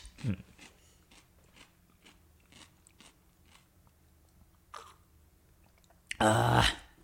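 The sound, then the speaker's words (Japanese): Crisp bites of a fresh cucumber: a sharp crunch at the start, a run of soft, evenly spaced chewing crunches, then a loud, dense crunching burst near the end. “キュウリとかやっぱ音もいいっすよね。ちょっと一個食べます。”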